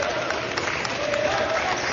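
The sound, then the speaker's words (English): Montgomery fans at a basketball game make a steady roar of crowd noise mixed with clapping. It holds at an even level throughout with no clear peaks. “And you can hear the Montgomery fans behind me getting into it.”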